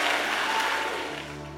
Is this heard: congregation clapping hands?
yes